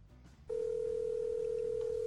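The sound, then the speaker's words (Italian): A faint telephone ringing tone plays on a call line that is free. After a brief low rumble, a steady mid-pitched tone starts and holds unbroken to the end. “Ecco, il telefono sta squillando, la linea è libera. Terzo squillo, quarto.”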